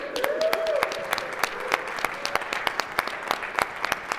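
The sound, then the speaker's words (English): An audience applauds to welcome newcomers at a morning church service. Dense clapping first rises with a brief vocal whoop, then thins into sparser, distinct claps. “And as a community, let's just give them a little whoop whoop to welcome them this morning.”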